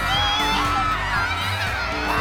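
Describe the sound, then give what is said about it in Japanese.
A crowd cheers loudly for a water-course race where competitors speed along using magic, with shrill whoops and shouting voices packed into a dense, continuous roar that stays strong throughout. “すごい歓声。”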